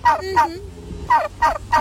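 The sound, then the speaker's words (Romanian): A turkey gobbles in five short, harsh, rattling bursts that come in two groups separated by a brief pause. “Nectarie, care a spus că este sunetul unei curci. Da. Aceasta este o curcă.”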